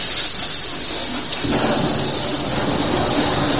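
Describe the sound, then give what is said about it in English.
A cutting torch burns through sheet steel discs with a loud, steady roaring hiss that turns rougher and more crackling partway through. “First, he burns out sheet steel discs, and from these discs, he cuts out circular strips.”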